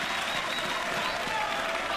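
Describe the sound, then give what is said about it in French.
Applause from an audience during a tribute, a dense, steady clatter of many hands that stays loud and even throughout without a break. “Applaudissez-les, s'il vous plaît.”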